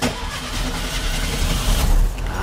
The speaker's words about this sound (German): Drum drehen wir jetzt einfach mal den Zündschlüssel um.